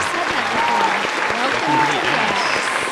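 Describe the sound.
Studio audience applause welcomes a married Broadway couple, a dense steady patter of many hands holding at an even level for about three seconds, with voices and cheers mixed in.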